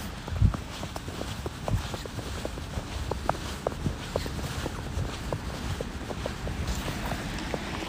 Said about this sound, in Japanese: 新雪の音という音が聞こえるでしょうかね。まあ、散歩中です。